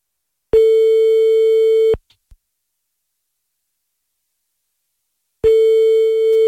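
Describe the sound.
A telephone line tone sounds while a call is being placed: two long, steady, even-pitched tones separated by a pause of a few seconds, with a couple of faint clicks in between.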